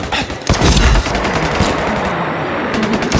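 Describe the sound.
Gunfire erupts in rapid, dense bursts like machine-gun fire, loud and nearly continuous across the moment, with sharp, overlapping cracks.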